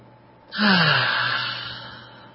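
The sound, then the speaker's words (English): A deep breath let out through the mouth: a single long, airy exhale that starts abruptly and loudly, then slowly fades, with a faint voiced hum beneath it that drops in pitch. “And another, and just let it out through your mouth, really deep.”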